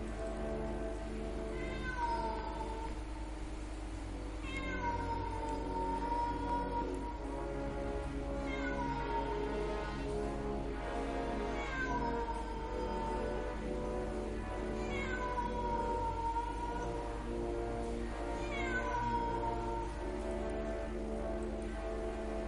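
A cat meows eerily and repeatedly, drawn-out wavering cries recurring every few seconds over a steady patter of rain, with no talk.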